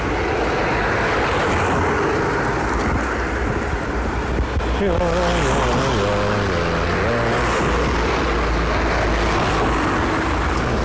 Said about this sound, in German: So, jetzt kommt ein Mercedes, der will uns nicht vorbei.